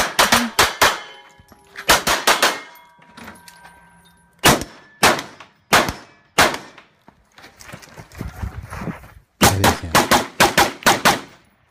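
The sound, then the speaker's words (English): Gunfire from tactical shooting footage comes in many rapid, sharp bursts of two to four shots, separated by short quiet gaps, with bright metallic clangs ringing among the shots. “y'all want to see Terran shoot? Let's watch Terran shoot.”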